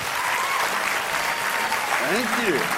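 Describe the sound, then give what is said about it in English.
An audience in Sydney claps to welcome a guest speaker who has come from Utah. The applause is steady and continuous, and a voice can be heard briefly over it near the end. “so let's give him a very, very big Sydney welcome. Let's put our hands together for Don Tolman.”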